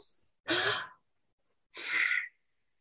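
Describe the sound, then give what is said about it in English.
Breathing exercise with an inhale through the nose, an inhale through the mouth and an exhale through the nose, heard as a brief faint puff and then two loud, airy breaths separated by a pause, with no talk. “So inhale through the nose and then inhale through the mouth and then exhale through the nose.”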